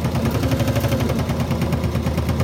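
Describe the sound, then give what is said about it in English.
Sewing machine running, giving a fast, even mechanical clatter of rapid stitching pulses that stays loud and continuous over a low motor hum. “Have you ever used a sewing machine before”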